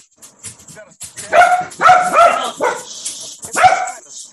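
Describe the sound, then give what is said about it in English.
Dogs barking: several sharp, loud barks come in clusters, with short pauses between them and a person talking in the gaps. “God damn it, dogs.”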